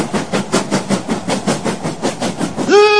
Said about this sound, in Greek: Αυτό εδώ το μεγάλο το στιβαρό τρενάκι είναι η Ευρωπαϊκή Ένωση. Προσέξτε τώρα, προχωράει σε κάποιες ράγες.